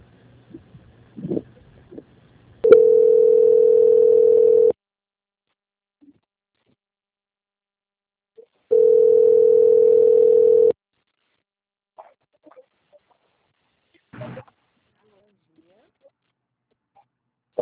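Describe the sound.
Telephone ringing tone while a call is transferred: two steady, mid-pitched tones about two seconds long, separated by a long silence, with a few faint, brief sounds before and after.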